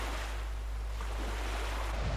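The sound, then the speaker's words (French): Steady rushing water and wind around a small boat crossing a lake, a continuous, even wash over a deep rumble with no distinct breaking waves. “Un jour, Jésus monta dans une barque avec ses disciples. « Passons de l'autre côté du lac. » Et ils partirent. Pendant qu'ils naviguaient, Jésus s'endormit.”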